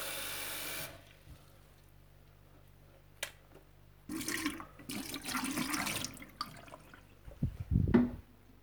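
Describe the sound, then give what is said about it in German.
Cress is washed under running tap water in a kitchen sieve. After a quiet start and a single click, a short burst of splashing flow fills the middle, then a few low thumps follow. “wascht sie im Küchensieb, lasst sie gut abtropfen”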